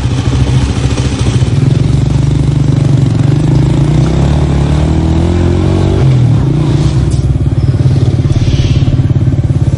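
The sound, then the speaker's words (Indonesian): A motorcycle is ridden at night to a fried-snack stall, its engine chugging loudly and steadily throughout, with the revs rising briefly midway before settling back. “Aku mengendarai motorku ke tempat warung gorengan tersebut.”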